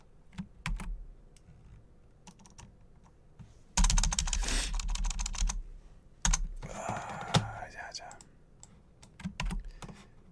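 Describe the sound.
Typing on a computer keyboard while writing a message: many quick, irregular key clicks, with a couple of louder, denser stretches of clatter partway through.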